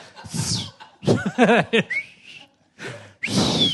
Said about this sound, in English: the whole book's about whistling as well, so it's just... It's how to whistle. How to whistle, that's what you're listening to.